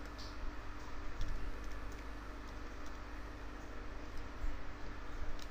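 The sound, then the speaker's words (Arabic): Faint, irregular clicks of a computer keyboard as an IP address is typed into a web browser, with scattered keystrokes over a steady low background hiss. “هنروح بعد كده على البراوزر بتاعنا وهبتدي اقول له http اكتب الاي بي بتاعي”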